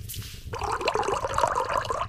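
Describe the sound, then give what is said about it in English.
Hot water is poured into a mug holding a cocoa packet's powder. A steady, splashing liquid stream starts after a brief pause and continues evenly to the end. “I have a cocoa packet and some hot water right here. I'll just add them together in a mug.”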